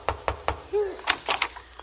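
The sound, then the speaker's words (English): Three sharp, evenly spaced knocks on a door in a comedy scene, followed by a short vocal sound and voices talking. “Go ahead, knock on the door.”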